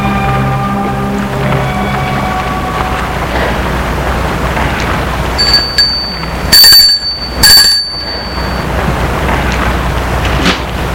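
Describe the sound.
A doorbell rings at a parents' home: two bright, high ringing bursts close together, with a steady rumbling background noise throughout.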